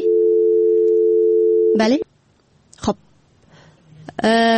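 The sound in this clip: A telephone dial tone follows a dropped call, humming at a steady, low, even pitch for about two seconds before it cuts off. Brief chirping sweeps follow, and then a voice is heard.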